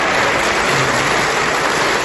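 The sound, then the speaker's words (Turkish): Loud, continuous applause from the AK Party parliamentary group in the assembly hall for Erdoğan, a dense unbroken wash of clapping. “AK Parti grubuysa Erdoğan'a destek vermek için alkışlarla adeta salonu inletti.”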